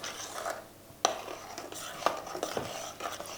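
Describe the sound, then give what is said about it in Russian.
A spoon stirs a cocoa baking mixture in a bowl, making a continuous soft scraping and rubbing broken by a few sharper clinks against the sides. “Опять перемешали немножечко.”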